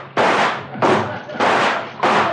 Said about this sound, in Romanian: Trageți! E timpul să tragem, domnule! Un crocodil a reușit să se urce pe plută!